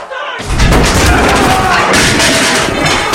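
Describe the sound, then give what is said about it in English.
Prisoners smash furniture, overturn beds and attack the window grills in their cells. The result is a loud, dense, continuous din of crashing and banging. “They break furniture, tear the clothes, turn their beds over and attack the grills over the windows.”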